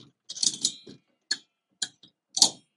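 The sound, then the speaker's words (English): 3.5-inch screws scrape and tick against the metal eye holes of an object hanging from a rafter as it swings, giving a few brief, bright metallic scratches with short gaps between them. “If the audio picked that up, if the microphone picked that up, you heard sounds, and those sounds were the screws scraping against the metal of the eye holes that”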